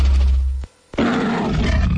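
A lion roaring in two deep, loud, rumbling bursts separated by a brief pause.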